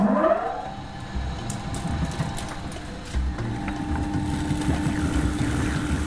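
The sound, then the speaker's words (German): A stone mill grinds rye grain into flour, a loud, steady mechanical rumble and whir with fine rattling texture that runs without pause after starting up. “Das hier ist eine Steinmühle. Und die werfen wir jetzt mal an. Das wird sehr laut.”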